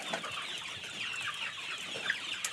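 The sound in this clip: Chickens cluck softly inside a coop during an evening check as the flock settles for the night. Many quiet, overlapping clucks and murmurs run steadily with no talking.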